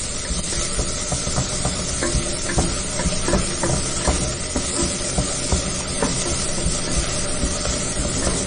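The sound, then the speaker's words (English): Onions frying in a pan for chicken biryani give off a steady sizzle and continuous hiss, with faint stirring clicks scattered throughout. “my onions are just gradually getting translucent. I want them slightly brown. Okay, I'm just going to let them cook.”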